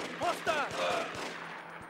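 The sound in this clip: Gunfire during a video game mission, a rapid series of sharp shots repeating under a voice talking.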